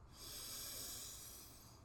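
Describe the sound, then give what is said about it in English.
A long, deep inhale through the nose during a breath-of-fire yoga session, a steady airy hiss that swells and then eases slightly over nearly two seconds, quiet and heard alone. “We'll take a nice deep inhale in through our nose”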